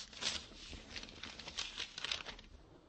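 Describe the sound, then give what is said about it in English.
Paper rustles and crinkles as a letter is pulled out of its envelope. Soft, irregular crackling comes in a few quiet bursts, with no talk. “Go ahead, take one of them out of the envelope and read it.”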